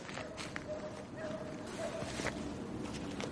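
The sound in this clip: A man's footsteps walk away in a few soft, irregular steps. A voice speaks over them.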